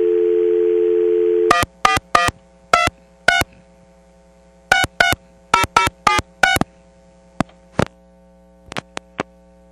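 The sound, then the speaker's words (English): A payphone dial tone gives way to eleven touch-tone key presses in two quick groups as a call is placed through an automated coin toll system. A few short, thin blips follow, all over a steady low hum. “I'm going to call something now that will go through the wonderful ACTS system.”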